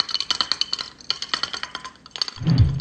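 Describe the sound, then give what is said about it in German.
Glass clinking as a bottle of beer is opened: many quick, bright clinks in an uneven run, then a short low thump at the end. “Ich denke mal, jetzt kann ich mir ganz entspannt ein Bier aufmachen.”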